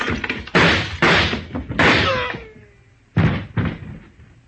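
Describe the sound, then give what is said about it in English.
Gunshots in a radio drama ring out as several sharp, loud bangs in an uneven sequence, with a thin tone sliding downward between them. “Then I did shoot the right man.”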